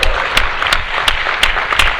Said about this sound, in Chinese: 不过刚刚感谢你们这么可怜的掌声，实在是后悔。